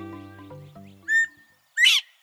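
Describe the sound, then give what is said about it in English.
A northern bobwhite quail, the only quail native to eastern North America, gives its two-note whistled call: a short steady note, then a louder, sharply rising whistle. Low sustained tones fade out just before it. “maybe the most vivid example is the call of the bobwhite. It's the only quail native to eastern North America.”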